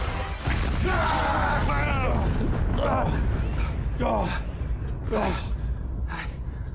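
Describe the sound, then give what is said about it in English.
A planet being blown up: a sustained, roaring explosion with dense, rumbling noise lasting several seconds, while voices talk over it. “First, uh, well, you blew up another planet, obviously. What's that, three for you now?”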